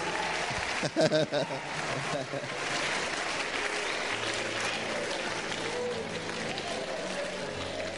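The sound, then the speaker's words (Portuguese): Audience applause at a church gathering, clapping for Jesus: a sustained, dense wash of many hands clapping that runs steadily through the whole stretch, with a voice heard briefly near the start. “Come on, put your hands together for Jesus. Uma salva de palmas para Jesus.”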